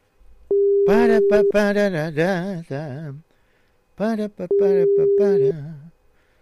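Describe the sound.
A telephone tone sounds while a call is being placed. It is a steady, even hum heard twice, each lasting about a second, with voices talking over and between them.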